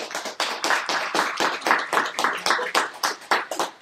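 Audience applause welcoming a professor to the stage at a lecture, dense steady clapping from many hands that carries through the whole stretch without voices.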